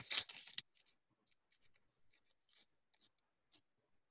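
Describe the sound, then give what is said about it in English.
A sheet of paper is ripped up in one short, loud tearing burst at the start, followed by a few faint scattered rustles and near silence. “I only heard the first rip, and then it decided to cut out the rest of the sound. I don't know what I just ripped up.”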